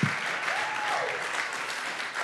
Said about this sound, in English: Lass uns denen mal einen riesen Applaus geben.